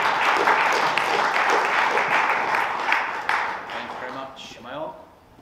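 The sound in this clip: An audience applauds to welcome a preacher, with dense clapping that tapers off toward the end as a voice begins talking.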